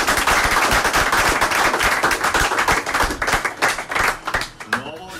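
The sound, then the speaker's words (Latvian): People applauding at a sports camp, with a dense, fairly loud patter of many hands clapping that thins out and grows uneven toward the end, where a voice can be heard. “Jā, jau redzēt, ir, kā viņi nāk ārā un kā jau aplaudē arī turpat eh, šajā sporta nometnē.”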